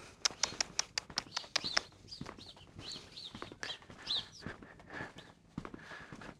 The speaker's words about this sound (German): Die Vögel sitzen hier auf der Dachrinne, auf dem Haus und beobachten uns.